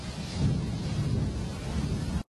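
Thunder rumbles through a rainstorm as a sound effect: a loud, continuous low roar with broad rain-like hiss above it, steady for about two seconds before cutting off abruptly.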